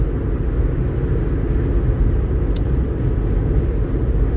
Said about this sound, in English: So right now I'm driving and having a podcast episode.